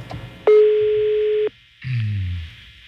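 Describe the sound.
A telephone ringback tone heard while calling another line: one steady mid-pitched tone lasting about a second, followed by a short, softer muffled sound.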